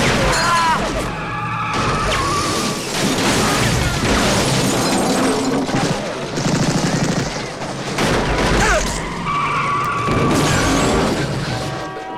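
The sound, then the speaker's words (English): Cars carrying armed men burst out of the large crates hiding them, with skidding tires and crashes amid rapid, continuous gunfire, a dense and loud barrage that runs almost unbroken throughout. “two cars filled with gun-toting men blast out from the large crates which had hidden them.”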